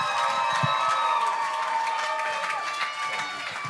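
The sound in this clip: Students at a church youth service applaud and cheer to welcome a speaker, with dense, loud clapping mixed with whoops and shouts that continue throughout.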